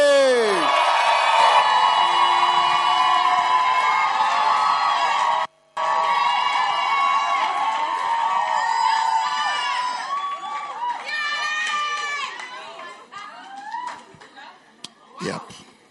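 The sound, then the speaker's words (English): A church audience cheers and makes noise, with loud, sustained crowd shouting, whoops and high cries that break off briefly once, then carry on and gradually taper toward the end. “If you're excited as I am, make some Holy Ghost noise.”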